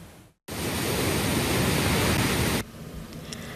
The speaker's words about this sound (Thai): สายน้ำที่ไหลผ่านเขื่อนเจ้าพระยานี่คือหนึ่งในจุดยุทธศาสตร์สำคัญของการบริหารจัดการน้ำในลุ่มน้ำเจ้าพระยา